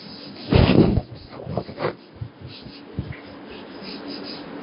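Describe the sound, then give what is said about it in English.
Marker strokes on a board while someone draws, starting with one louder, longer scraping stroke and followed by several short, softer strokes, with no talk. “Let me draw something on the board.”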